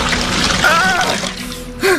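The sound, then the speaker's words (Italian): A blast of icy water thrown over a weakened, long-held captive, a steady rushing splash and pour that ends with a short gasp. “Una raffica d'acqua gelida lo risveglia. Ecco qua!”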